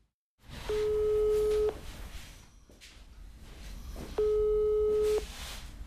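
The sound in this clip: A telephone call tone plays while a number is dialed out. Two steady, mid-pitched tones last about a second each and are separated by a long pause, over a constant hissing background.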